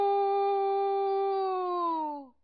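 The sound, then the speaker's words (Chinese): A person pinches their nose and imitates a rooster crowing. The voice holds one long nasal, buzzy tone for about two seconds, then drops in pitch and cuts off. “孟尝君正急得团团乱转的时候，门客当中又有一个惯偷出身的人在关前捏着鼻子学起了鸡叫”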